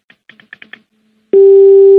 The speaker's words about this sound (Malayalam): അതും കട്ടായി തോന്നുന്നു കോള് കട്ടായി പോയി